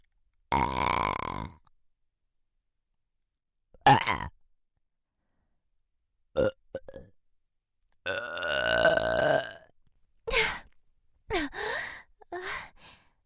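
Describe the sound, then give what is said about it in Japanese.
A run of burps, several short and abrupt and a couple long and drawn out, with silent pauses between them and no talking. “ゲップじゃないかと？”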